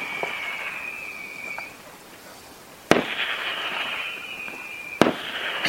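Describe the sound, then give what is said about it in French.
Fireworks rockets hiss with a bright, whistling rush, then two sharp, loud bangs burst out a couple of seconds apart, each followed by more crackling, whistling hiss. “C'est comme des fusées, hein. C'est des fusées d'ailleurs. C'est des fusées.”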